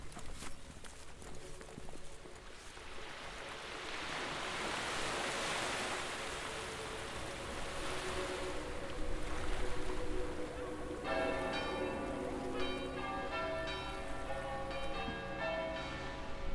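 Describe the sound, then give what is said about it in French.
Harbour ambience at the port of Saint-Jean-de-Luz, across the Nivelle from Ciboure: a steady, soft wash of surf-like noise, with clear ringing bell tones joining in during the later part. “Là, nous sommes devant le port de Saint-Jean-de-Luz et en face, nous avons donc Cibourg.”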